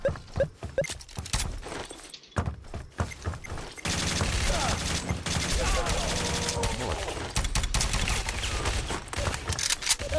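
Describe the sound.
Rapid gunfire in a video game: many sharp shots crackle in dense bursts and then merge into a loud, continuous barrage.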